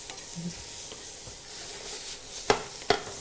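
Vegetables stir-frying with sesame oil in a pan give a faint, steady sizzle, broken near the end by two sharp scraping clicks of utensil against pan.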